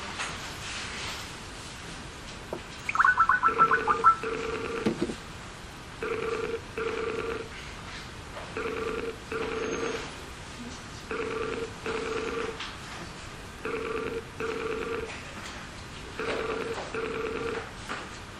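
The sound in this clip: Outgoing phone call: a brief burst of dialing tones, then a regular series of low ringback tones, each sounding as a paired beep followed by a pause, repeating steadily with no talk.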